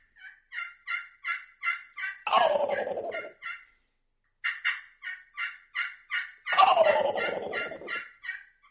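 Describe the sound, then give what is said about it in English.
An imitated turkey gobble mimics a mature tom. Each time, a run of short, evenly spaced yelps leads into a rolling, descending gobble, and the sequence is heard twice in fairly faint, clean bursts. “A good, clean gobble. But if I'm, like, really trying to sound like a mature Tom's moved in or whatever, I feel like he's the boss Tom, and I'm just really trying to challenge him.”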